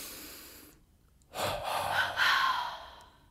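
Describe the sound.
A deep breath drawn in, then let out as a double exhale during a tense-and-release breathing exercise: a soft, airy inhale, a brief pause, then two strong, breathy pushes of air in close succession, alone without talk.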